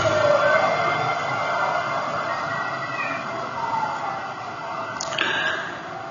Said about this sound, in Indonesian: Dan kayak gandeng ku ambulan.